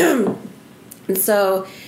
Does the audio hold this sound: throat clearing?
yes